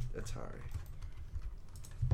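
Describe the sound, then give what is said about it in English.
Typing on a computer keyboard to enter a search: many quick, irregular key clicks tapping in an uneven rhythm, with a few heavier keystrokes near the end. “I typed in Brain Games, and that's not doing me any good. If you look up Brain Games Atari, it comes up.”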